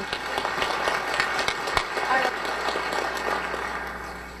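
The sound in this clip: Audience applause welcomes the mayor of Vancouver: a dense, steady wash of clapping that fills the whole stretch, loud and even, with crowd voices mixed in.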